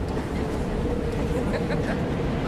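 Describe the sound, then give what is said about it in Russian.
A moving metro train carriage fills the scene with a steady, dense rumble and rattle from inside. The noise stays even throughout, with faint clicks over the low roar. “Послушай, я в метро.”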